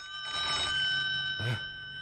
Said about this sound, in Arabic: أرد يا حبيبي؟ لا، ما حدش يرد على التلفون.